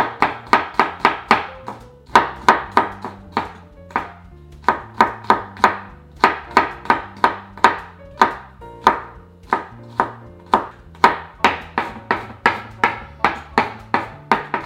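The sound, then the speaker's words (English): Knife mincing garlic on a cutting board while cooking vegan chana masala: many rapid, evenly spaced chopping strikes in a steady rhythm throughout, crisp and fairly loud, with no talking. “And then we'll just mince the garlic.”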